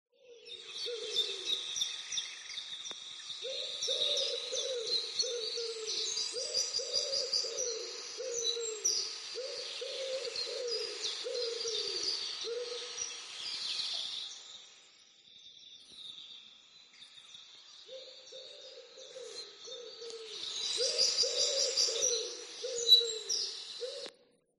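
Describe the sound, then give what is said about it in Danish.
Doves cooing in soft, low, hollow notes, repeated rhythmically in two runs with a short lull between. A faint, steady high chirping of other birds or insects runs underneath. “Hvad var den for en lyd? Duer. Nemlig,”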